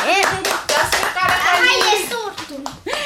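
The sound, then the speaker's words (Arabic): Children clap for a classmate who gave a correct answer in a quiz. The claps come in dense, uneven bursts mixed with children's voices talking over them. “هو تصفيق.”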